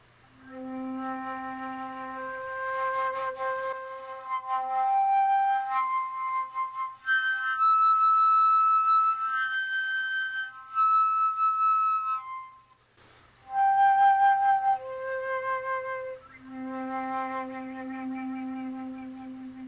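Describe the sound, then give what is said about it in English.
Flute playing up the overtone series while one note, starting from middle C, stays fingered. Sustained pure tones step upward through several higher pitches and then drop back low, with one brief gap near the end. “So that's the overtone series. I was just fingering one note there, starting on middle C, and just playing up the overtone series there.”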